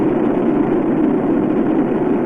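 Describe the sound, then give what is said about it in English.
Deep, continuous roar of three liquid-fuel space shuttle main engines during launch from Kennedy Space Center, about 32 seconds into flight as they approach throttle-down; a dense, steady rumble heavy in low tones with no breaks. “32 seconds into the flight, the three liquid fuel main engines soon will throttle back to 72% of rated performance down in the bucket”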